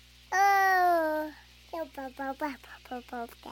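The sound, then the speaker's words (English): A very young male Bewick's wren babbles as it learns to sing, opening with one long, clear, harmonic-rich note, then a quick run of short, choppy notes with brief gaps between them. “a very young male Buick's wren is beginning to learn how to sing. Like a human baby, he'll babble while he experiments with sounds and learns how to organize”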